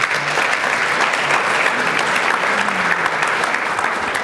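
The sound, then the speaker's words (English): Audience applause welcoming a guest onto a panel about arts and music festivals in the Coachella Valley: steady, dense clapping that holds at an even level from start to finish with no voices over it. “So the Vossler family here, Ernie Vossler, just an integral part of the Coachella Valley, so very pleased to, let's give her a warm welcome.”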